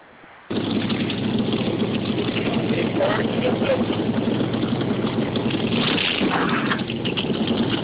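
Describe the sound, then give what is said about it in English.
Vehicle motor running in a loud, steady, continuous drone. It starts abruptly after half a second of near quiet and holds with little change in pitch to the end. “Motor sound good.”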